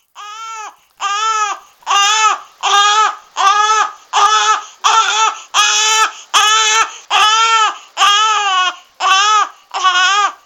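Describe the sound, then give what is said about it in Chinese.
An infant wails in loud, regular bursts, each cry a rising and falling sob separated by a brief breath. Many cries follow one another with no other sound. “突然间听见一阵阵的 BB 仔喊声啊”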